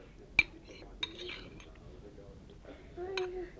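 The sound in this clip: A knife clinks twice sharply on a plate while marmite is spread on toast, followed by softer scraping and quiet murmuring voices, all fairly faint.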